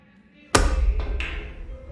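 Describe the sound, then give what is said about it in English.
A stack of coasters slammed onto the side of a brass bar gives one loud, sharp impact with a ringing, metallic decay. Two lighter knocks follow shortly after. “A stack of coasters is slammed on the side of a brass bar.”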